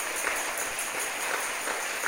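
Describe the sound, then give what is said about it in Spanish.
A church audience applauds in praise of God with a soft, steady patter of many hands clapping that continues evenly throughout. “¿Por qué no le damos un aplauso al Señor nuestro Dios?”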